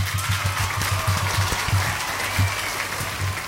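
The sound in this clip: Applause during a contest announcement: steady, dense clapping throughout, with a low rhythmic thumping pulsing underneath.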